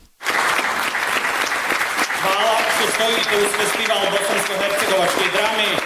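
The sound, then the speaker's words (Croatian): Spectators at a Bosnian-Herzegovinian drama festival in Zenica clap for an empty stage. The applause is strong and continuous, and someone starts talking over the clapping partway through. “Umjesto aplauza upućenog glumcima, učesnicima festivala bosansko-hercegovačke drame u Zenici, sinoć se aplaudiralo praznoj sceni”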